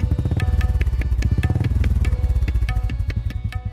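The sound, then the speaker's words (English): A Royal Enfield 500 Classic motorcycle engine running, a loud, steady stream of rapid, evenly spaced thumping pulses with a rich, throbbing tone, heard alone without voices. “I'm on a ride from Ushuaia to Alaska on my Royal Enfield 500 Classic.”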